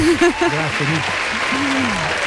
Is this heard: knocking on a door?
no

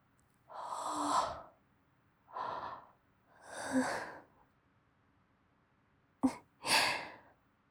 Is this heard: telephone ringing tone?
no

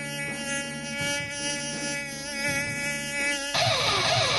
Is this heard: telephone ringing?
no

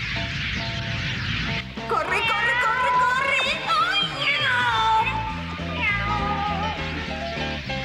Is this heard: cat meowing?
yes

